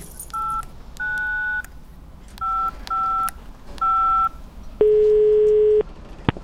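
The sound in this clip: Telephone keypad tones: five dialing beeps of uneven length in a quick, irregular sequence, followed by a longer, lower steady tone and a brief click at the end.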